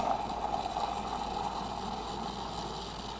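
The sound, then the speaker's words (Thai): Small electric milk frother whipping milk for a latte-style drink, giving a steady, even whirring drone with airy hiss that holds at an unchanging level throughout, with no talking. “เดี๋ยวเราจะตีฟองนมก่อนนะครับแล้วก็ทำการใส่ฟองนมด้านบนนะครับ”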